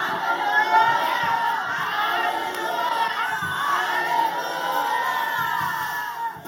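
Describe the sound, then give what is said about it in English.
Church audience shouting hallelujah together, a loud, sustained wash of overlapping voices that swells and falls without a break. “If you believe it, shout three other loud hallelujahs.”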